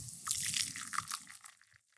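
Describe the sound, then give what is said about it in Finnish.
Brewed coffee with a light crema being poured from a moka pot into a cup, a faint, soft liquid trickle lasting about a second and a half before tapering off. “Mä kaadan sitä sulle tähän kuppiin, niin katsotaan mitä tapahtuu.”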